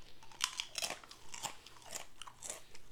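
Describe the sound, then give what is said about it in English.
Crunchy Lay's Stax canned potato chips are bitten and chewed in a quick series of crisp, loud crunches, with no talking. “I immediately was like, fuck it, they're canned chips, I'm eating them.”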